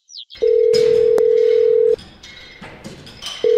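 A phone rings with a steady, single-pitched electronic tone. It lasts about a second and a half, falls silent over a low background murmur, then starts again.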